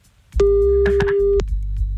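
A telephone busy tone follows a hung-up call: one loud, steady mid-pitched tone holds for about a second, with faint scattered noises mixed in and a low hum underneath.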